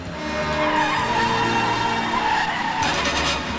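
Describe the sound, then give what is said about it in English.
A car speeding down a side road on the outskirts of a city. A continuous loud engine roar carries a squealing, skidding tire sound on top, steady throughout with no voices. “While the police squabble, Scaramanga, on the outskirts of the city, drives down a side road”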